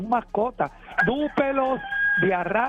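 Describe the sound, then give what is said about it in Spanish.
A rooster crows with one long, drawn-out, wavering call that rises and then holds, while a person talks before and during the crow. “Escucha el gallo. Dúpelo, escucha el gallo ahí.”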